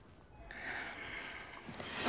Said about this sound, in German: bitte tief ein und aus